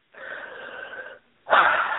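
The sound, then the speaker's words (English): A slow, deep breath in with a slight whistling edge, a short pause, then a louder, rushing breath out, heard alone during a guided breathing meditation. “So let's just breathe.”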